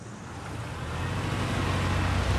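A car driving off: a broad rushing engine and road noise that swells steadily in loudness, with no voices.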